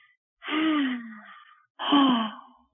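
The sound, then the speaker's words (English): Two long, deep breaths during a guided breathing and gratitude exercise, each a voiced, sighing rush of air that fades out, separated by a short silence. “And breathe.”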